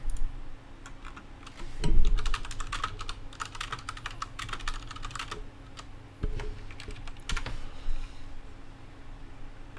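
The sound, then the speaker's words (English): Clattering computer keyboard typing as a search for Box Office Mojo 2019 worldwide figures is entered into Google; many fast keystrokes in bursts with short pauses, and a soft thump early on. “No, I'll go back to Google and type in Box Office Mojo 2019 worldwide if you can.”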